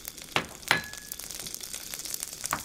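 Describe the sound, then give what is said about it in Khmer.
Eggplant frying in a pan gives a faint, steady sizzle with scattered light crackles and a couple of sharper pops near the start, with no voices. “ដាក់ត្រប់ពុតលំញងនេះលីងនៅក្នុងខ្ទះឲ្យវាឆ្អិន”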